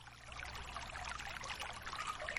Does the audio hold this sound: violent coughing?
no